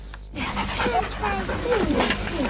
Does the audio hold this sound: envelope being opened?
no